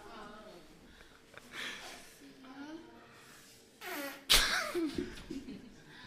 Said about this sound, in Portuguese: São quatro mulheres peidando.